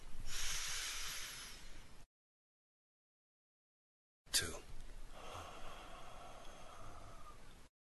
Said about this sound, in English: And as we close our eyes, let's take a deep breath in